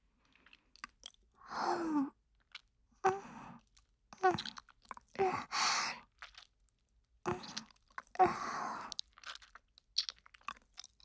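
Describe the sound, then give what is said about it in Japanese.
Soft, wet mouth sounds of slow chewing and nibbling in an ASMR ear-eating roleplay aimed at the left ear: many quiet, separate bursts of smacking and crunching with near-silent pauses between them. “まずはゆっくり僕ちゃんのかわいい左耳もいただきます”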